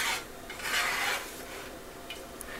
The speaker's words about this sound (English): I'm just using kind of like a spoon to scoop it from the pan into the plate. I have my plate on the stove here.